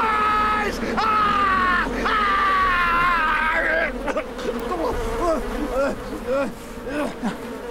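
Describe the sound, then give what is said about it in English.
Bees buzz after being poured into a mesh helmet on a man's head, a dense insect drone mixed with his strained cries and groans, loud at first and then broken into shorter uneven bursts. “A basket and mesh helmet is placed on his head and bees poured in.”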